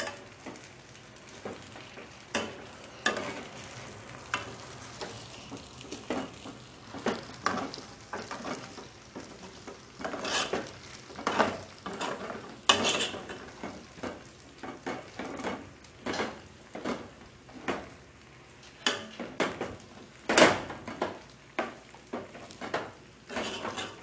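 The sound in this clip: Pots and pans clatter as spaghetti is cooked and stirred: many scattered clinks, knocks and scrapes in an irregular rhythm over a soft, continuous background hiss, mostly quiet with occasional sharper metallic hits.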